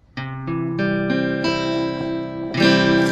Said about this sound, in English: So that's what the C chord should sound like.